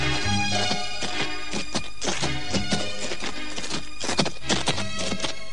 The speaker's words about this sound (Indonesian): apakah kita perlu memacu kuda kita biar berlari kencang? Tidak perlu, Kayan. Kita tidak perlu tergesa-gesa. Kita harus jalan dengan biasa saja.